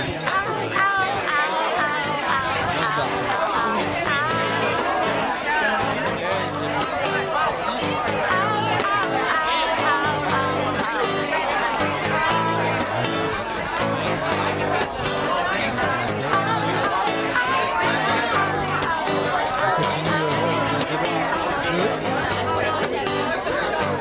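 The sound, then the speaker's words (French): Bar ambience as everyone leaves: a continuous babble of many overlapping voices and crowd chatter, steady in level throughout, with scattered knocks and movement beneath the talk. “On continue l'ambiance des bars. C'est quand tout le monde part.”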